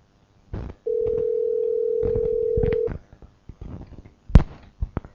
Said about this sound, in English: You dialed the wrong number?